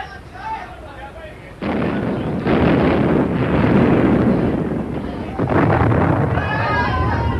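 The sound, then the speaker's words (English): Naval gun salvos firing from a warship, a few heavy booming blasts that each swell into a sustained, loud roaring rumble, with voices before and after the firing. “Open fire, number one. Salvos, deflection four left. Range 900. Shoot!”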